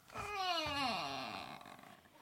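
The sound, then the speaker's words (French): A door creaks as it swings shut, one long, groaning, tonal creak whose pitch slides steadily downward before it fades away. “Il referma la porte qui grinça”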